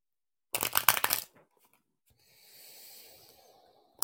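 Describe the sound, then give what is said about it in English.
Cards shuffled for a reading, a brisk burst of fluttering riffle clicks followed by a softer, longer rustle as the deck is handled, with no talking. “Connecting to the sound of the cards.”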